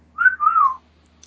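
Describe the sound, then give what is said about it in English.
A person gives a two-note wolf whistle in character during a role-playing game. A bright, clear first note is followed by a longer second note that rises slightly, then slides down. It is heard alone. “Was the whistling in character? Should I respond to that? Yeah, it's the whistling in character.”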